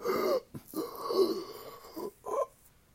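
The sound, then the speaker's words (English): A man in chest pain gasps for air with a few strained, wheezing breaths of uneven length, short catches around one long drawn-out rasping inhale, loud and alone. “With a sense of extreme pain from his chest and confusion, the king started gasping for air,”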